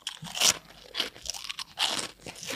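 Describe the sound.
Someone crunching on a snack, a few loud crisp bursts of biting and chewing separated by short pauses, heard without talk.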